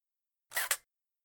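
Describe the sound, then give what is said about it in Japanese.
A camera shutter fires once to take an ID photo, giving a quick double click with two crisp snaps close together in a short, bright burst that stands alone in silence. “証明写真撮っちゃいました。”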